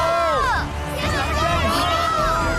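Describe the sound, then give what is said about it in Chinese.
A whole stadium audience cheers a racer at a grand prix speed race. Many voices shout and chant together loudly and continuously, forming a dense roar with no pause. “这是全场观众都在为我加油。”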